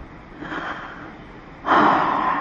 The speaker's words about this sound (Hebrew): שאיפה